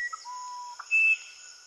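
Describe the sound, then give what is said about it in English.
Song of a musician wren, a small brown Amazonian bird: a few short, clear whistled notes, a sustained mid-pitched tone, then a louder, higher held whistle, over a faint, steady high background hum. “This is the musician wren, which is a small brown bird found in throughout Amazonia.”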